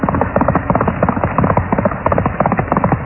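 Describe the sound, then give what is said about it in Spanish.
Galloping hooves of a spirited black horse, a muffled, rapid and steady pattern of many rhythmic thuds repeating evenly throughout, with no voices. “sus huesudas manos tiraban de las riendas del brioso corcel negro y partía a todo galope.”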